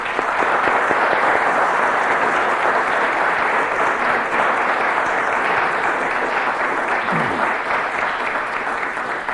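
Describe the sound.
An audience gives sustained applause to welcome a guest speaker at a lecture. Dense, even clapping holds at a steady, full level for the whole stretch, with no voices rising above it.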